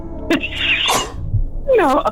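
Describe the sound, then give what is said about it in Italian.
A person with allergies sneezes straight into a microphone: a sharp, loud burst of breathy noise with a short voiced lead-in, followed by a brief vocal sound. “Salute. Quando vuoi starnutire nel microfono.”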